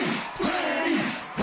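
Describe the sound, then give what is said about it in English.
A crowd of fans cheers and shouts on a field at night, a continuous roar of many voices that swells and dips briefly near the end. “There's a buzz on the field tonight. The dairy farming crowd is demanding Pioneer brand Plenish high oleic soybeans.”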